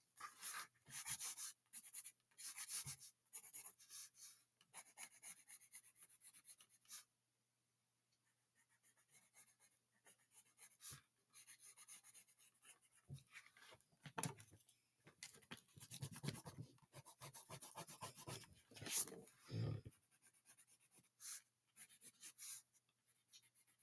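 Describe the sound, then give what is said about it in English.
Hand-drawing an anime eye on paper makes quick scratchy strokes that come in many short bursts. A brief silent pause falls partway through, then the soft, faint scratching and rubbing strokes resume. “Now, 1 minute to draw an anime eye. 3, 2, 1. 3, 2, 1, go.”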